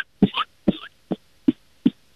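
Five short coughs from someone with a frog in the throat, each a brief dry burst, evenly spaced about every half second, with no talk around them.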